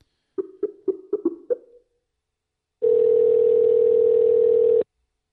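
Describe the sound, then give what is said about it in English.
A telephone call is being placed: six short, low electronic beeps come in quick succession, then after a pause a steady, single-pitched dial tone holds for about two seconds and cuts off. “We're going to try to get Jared Oliphant on the line.”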